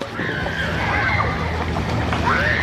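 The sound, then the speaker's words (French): Children splashing and paddling in a swimming pool while leaning on inflatable floats, a continuous watery sloshing with scattered brighter splashes throughout. “les enfants peuvent barboter tranquilles, appuyés sur des licornes gonflables ou des bouées en forme de part de pizza géante.”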